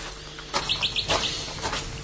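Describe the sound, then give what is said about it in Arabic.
Birds chirping in a sunny garden: a few quick, high, thin tweets cluster together in a short burst, standing out clearly over a soft steady background, with no voices. “إيه حتى هي بقى حلوة، الشميسة زرقة والعصافر تزقزق.”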